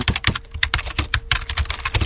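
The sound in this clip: Rapid typing on a computer keyboard while writing an online review, many irregular clicks and key taps in a steady stream, with no talking.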